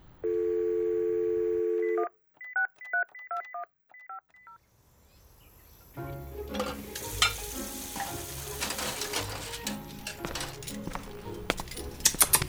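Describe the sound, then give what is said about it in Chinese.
A telephone number being dialed to call friends over for a meal: a steady dial tone, then a quick run of short keypad touch-tone beeps, followed by loud, continuous sizzling like food frying in a pan. “给小姚和大师哥打电话，让他们一块儿过来吃吧。”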